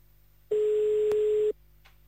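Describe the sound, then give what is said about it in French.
A single telephone ringing tone as a call is placed to Nivelles: one steady, mid-pitched beep lasting about a second, heard alone over a faint line hiss. “Et donc, on va appeler à Nivelle. Maintenant. À Nivelles, tout à fait. Allez, c'est parti, on y va, on appelle.”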